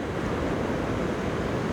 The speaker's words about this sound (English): the waves are rolling in